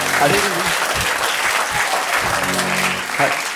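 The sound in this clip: An audience claps during a live rap performance that is being recorded for radio. The patter of many hands runs steadily under voices talking over it.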